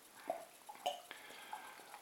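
Beer from a De Molen bottle is poured into a glass: a faint liquid trickle with a few light glassy clinks and drips.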